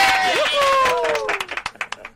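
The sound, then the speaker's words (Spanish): Scattered hand claps from a small studio audience welcoming a morning-show guest back from the Eurovision final in Lisbon; a voice opens, then a few sharp, separate claps follow at an uneven pace. “Un aplauso para Agustín Peñalver.”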